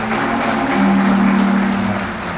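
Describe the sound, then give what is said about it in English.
Audience applause at a church service for two teachers asked to stand, a loud, steady patter of many hands clapping throughout. “Y'all give them a round of applause.”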